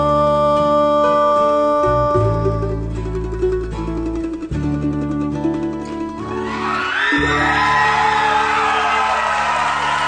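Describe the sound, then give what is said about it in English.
Whoops and yells from an excited concert crowd follow a bluegrass performance of the Tennessee Waltz. Sustained closing music gives way to a loud swell of cheering and shrieks over the last few seconds. “A lot of crowd noise. I wouldn't like to have been sitting by the one doing the shrieks and the yells, but they were very excited, and it would have been a lovely concert to have been at.”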